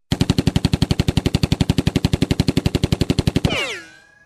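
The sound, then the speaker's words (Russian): Gunshot sound effect tied to a Colt .45 pistol: many evenly spaced, rapid shots fire in a fast, unbroken burst, then end in a ringing, whining tail that fades out. “Достал он свой кольт 45-го калибра и пристрелил Кощея в голову.”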